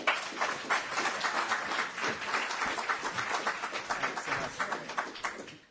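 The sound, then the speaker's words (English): Applause from an audience closing a conference session: a dense, steady patter of many hands clapping throughout, with no speech. “I think we should probably end by giving you a round of applause.”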